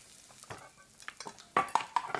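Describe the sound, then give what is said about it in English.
Tinned food tipped from an opened can into a saucepan: soft wet scraping gives way to a few sharp metallic clinks and knocks toward the end, with no talk. “Press down so the spike pierces the lid, then turn the handle. Hey! Now tip them in the saucepan.”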